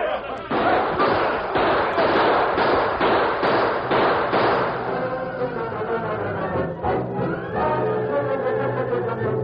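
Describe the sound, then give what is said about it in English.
Gunshots ring out in a radio drama ambush as a posse surprises outlaws, a rapid, evenly spaced run of loud sharp cracks, followed by voices and scuffling. “A few shots were fired, but the outlaws, taken by surprise and outnumbered, were quickly overpowered.”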